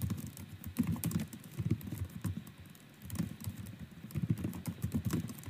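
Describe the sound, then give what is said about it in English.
Thumb typing a text on a phone: many quick, soft taps in an irregular patter, clustered in short bursts with brief pauses between them, with no talking. “Dude, it is so difficult to text or type, I mean, with my fucking thumb.”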